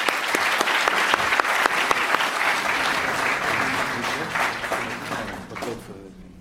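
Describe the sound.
Audience applause welcomes a lecture speaker: dense, steady clapping from a large crowd that holds strong throughout, then thins and fades near the end.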